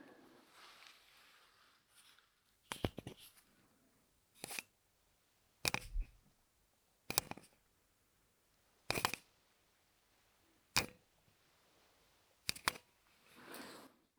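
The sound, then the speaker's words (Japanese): A Surface Pen stylus clicking: a series of sharp, bright, clattering clicks spaced one to two seconds apart over a quiet background, with no talk. “あまりいい音出なかった。今のはサーフェイスペン。”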